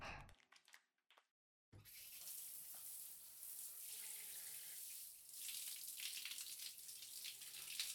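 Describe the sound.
Water rinses shampoo out of hair as a steady, hissing rush of running water. It starts after a few faint handling sounds and a short silence, then continues loudly to the end with slight swells.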